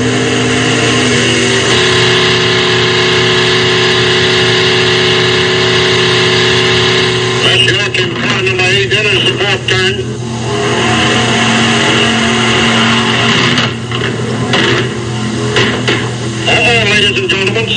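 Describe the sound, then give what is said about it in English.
A race car engine roars loudly and steadily at speed on a track, a dense, buzzing drone that turns rough and uneven midway as the motor cuts out and sputters. “The motor's cutting out. He's drifting through the fourth turn slowly.”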